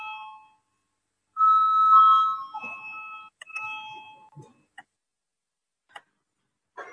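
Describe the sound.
A parliamentary chairman's bell rings before a vote, giving a clear, sustained metallic tone for about two seconds, followed by a few short, sharp ticks and clicks in otherwise near silence.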